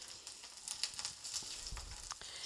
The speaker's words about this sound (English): I had another person, also Italian, describe it as scorched garlic.